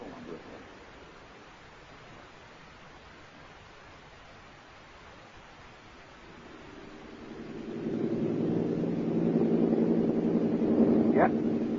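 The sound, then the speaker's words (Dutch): Airplane engine droning in flight before landing: a low, steady rushing noise that swells noticeably louder about two-thirds of the way through, then holds as a fuller, humming roar. “we gaan landen”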